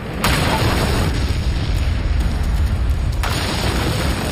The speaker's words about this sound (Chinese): 弗里森汉惊慌失措，按下了引爆按钮